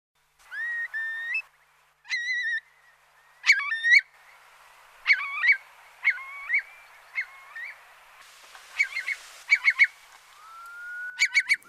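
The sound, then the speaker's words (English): Curlew calls, from a long-legged, ground-nesting wading bird with a curved beak: a series of clear, bright whistles in separate bursts, some bubbling into quick trills, ending on a long rising whistle, with no other sound. “Yes, well, that's the sound of the curlew. But this bird with long legs and distinctive curved back beak, of course, is rarely seen nowadays”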